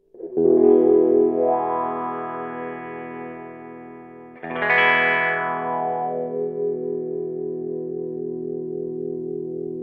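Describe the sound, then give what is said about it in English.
Electric guitar played through a wah-wah pedal: two sustained chords, the second struck about halfway through. Each one's tone sweeps between bright and muffled as the pedal rocks, and the notes ring on loudly with no talking. “it opens up the frequencies and suddenly starts allowing more high frequencies to come through. And you can rock it forward and back and get a wah-wah kind”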